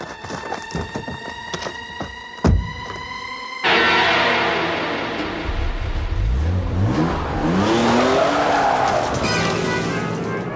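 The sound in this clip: A car roars off at speed with skidding, squealing tires during an escape, its loud engine revving in long rising and falling sweeps after a sharp thump and an earlier steady hum.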